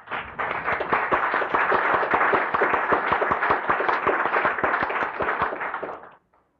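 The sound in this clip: Applause welcoming guests in a legislative chamber: dense, sustained clapping that holds at a steady loud level for about six seconds, then cuts off abruptly.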